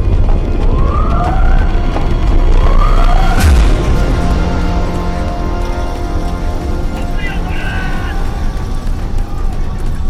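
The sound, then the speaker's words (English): Blaring sirens sound aboard a bomb-damaged warship, with repeated rising and falling wails over a loud, steady rumbling din. “Sadaki sprints towards the blaring sirens”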